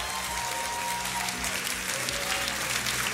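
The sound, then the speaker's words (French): An audience's standing ovation during a live worship service, a sustained wash of clapping. It is fairly faint and even, with no breaks from start to finish. “Est-ce qu'on peut pousser une vraie ovation pour le roi des rois,”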